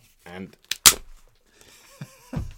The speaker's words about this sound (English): Or a massive stick echoes through the studio.